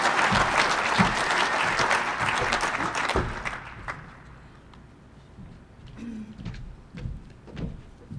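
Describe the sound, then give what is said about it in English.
An audience applauds to welcome a speaker. Loud, dense clapping lasts about three seconds, then dies away to a few scattered claps. “Next up, we have Gail LaCroix from Akron, Ohio. Let's give her a great big welcome.”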